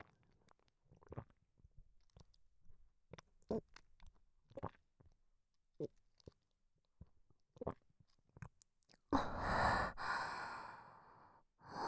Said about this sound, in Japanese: 私が飲み込む音、もっと聞いてくれますか？